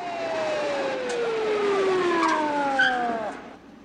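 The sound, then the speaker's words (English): Police car sirens wail as the cars emerge from an alley and speed down a hill, a loud, steady tone with layered harmonics and a rapid warble, gliding slowly downward before cutting off near the end. “Lon hides in the shadows as the police cars emerge from the alley and speed down the hill.”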